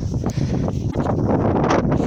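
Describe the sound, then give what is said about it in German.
A gust of offshore wind on a cliff-top coastal path, a loud, rough, continuous rumble with buffeting that fills the whole clip. “Und wenn da gerade ein Windstoß kommt, dann ist ablandiger Wind.”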